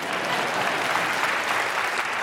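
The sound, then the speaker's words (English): Audience applause rings out as a crowd claps for an actress's first film role, a steady, dense wash of clapping that stays loud and even from start to finish. “Oh, yeah, you can clap that.”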